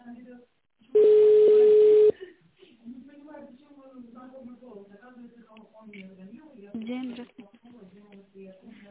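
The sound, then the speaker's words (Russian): A single telephone keypad tone, a steady beep of about one second, sounds while dialing a company's extension line. It stands out clearly against the quiet, and speech follows after it. “Наберите в тоновом режиме добавочный номер специалиста или дождитесь ответа секретаря.”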